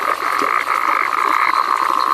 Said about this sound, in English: Australia's so-called froggers have recorded more than 1.3 million calls. It's helped scientists describe 13 new frog species, track species distribution, and identify new populations.